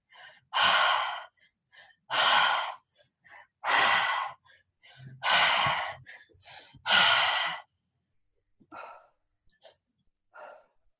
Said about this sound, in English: Three parts, belly, chest, and exhale. Really separate all three.